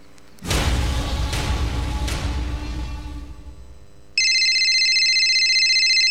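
An electronic phone ringtone sounds as a steady, high-pitched repeating tone in the last two seconds, entering abruptly after a long, loud rushing noise fades away.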